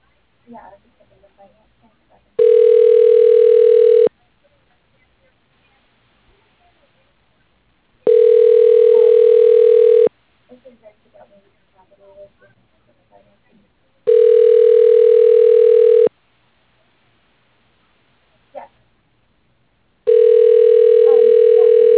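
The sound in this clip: Ringback tone on a phone line while a call is transferred: four long, steady, loud tones at regular intervals, the last one cut off, with faint voices and small sounds in the gaps.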